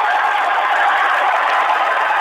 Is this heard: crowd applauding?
yes

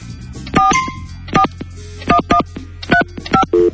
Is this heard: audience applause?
no

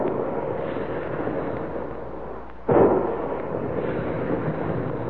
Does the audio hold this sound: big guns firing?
yes

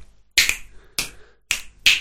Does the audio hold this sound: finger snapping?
yes

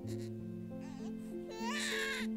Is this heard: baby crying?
yes

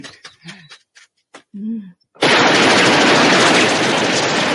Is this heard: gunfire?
yes

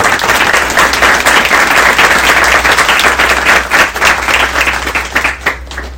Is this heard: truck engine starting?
no

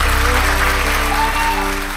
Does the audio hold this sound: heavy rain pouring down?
no

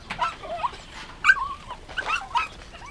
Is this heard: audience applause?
no

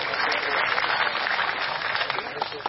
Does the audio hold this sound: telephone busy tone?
no

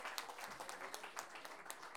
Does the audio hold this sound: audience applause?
yes

